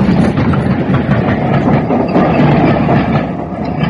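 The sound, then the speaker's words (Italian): A train runs past outside a mountain cabin as a dense, loud, continuous roar with rattling wheel noise throughout, easing slightly near the end. “Scusate, ma qui c'è un po' di traffico fuori dalla baita, passano i treni.”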